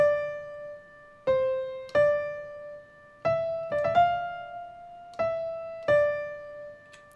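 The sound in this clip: Piano playing the right-hand melody of the first two measures of a song's verse: a short phrase of single sustained notes with clear attacks and ringing decays, moderately loud and heard alone.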